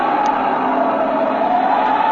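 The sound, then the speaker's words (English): Airplane engine drone in a drama sound effect of a plane throttled back while falling into a spin: a steady, even hum that holds at one loudness throughout, with no voices. “She's going into a spin. I'll throttle her back.”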